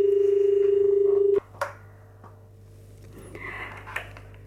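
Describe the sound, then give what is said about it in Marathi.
An incoming call to a radio phone-in makes a steady, low, buzzing telephone line tone for about a second and a half, which cuts off abruptly and leaves faint clicks and quiet noise. “आपण एक phone घेऊया. Phone येतो आहे.”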